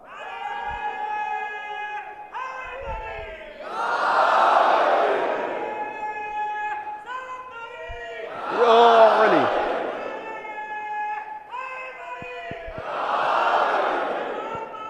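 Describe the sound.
A crowd at a religious gathering chants a collective slogan in call and response. A single voice calls out, and many voices roar back together, three times in a steady cycle.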